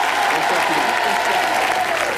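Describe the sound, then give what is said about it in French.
Loud audience applause fills a TV studio as a guest singer joins the set, a dense, unbroken roar of clapping that holds steady throughout. “sous un tonnerre d'applaudissements”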